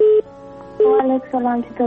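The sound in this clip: Two short, steady telephone tones as a caller is connected to a radio phone-in show, followed by a woman's voice coming over the line.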